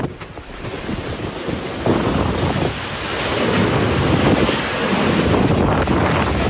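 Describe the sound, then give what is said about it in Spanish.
Severe, hurricane-like wind blows through trees during a rainstorm in the Isthmus of Tehuantepec. It is a continuous loud roaring rush that swells after about two seconds and stays intense, with no voices. “ramas, agua, encharcamiento, viento severo, pero muy severo, en esta zona del Istmo de Tehuantepec. Con sonido, por favor.”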